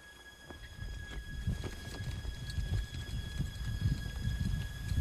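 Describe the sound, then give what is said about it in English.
Hooves of horses galloping as riders race through smoke carrying tall samurai banners: a continuous run of rapid, dull thuds, fairly loud and steady, with no talking. “Now, riders gallop through smoke bearing the tall banners of the samurai.”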